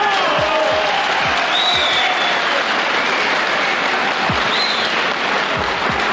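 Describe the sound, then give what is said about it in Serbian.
Loud, sustained applause from an audience at a political gathering of the Socialist Party of Serbia, a continuous even clatter of many hands that stays at full strength throughout. “Kako vidim, molim vas, ovdje aplauz, ovaj aplauz.”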